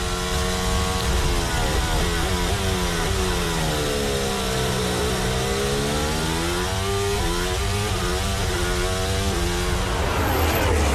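Onboard engine of a Formula 1 car during a sprint race at the 2026 Singapore Grand Prix: a loud, continuous high-pitched engine whine that drops to a low point mid-clip, then climbs steadily again as the car accelerates.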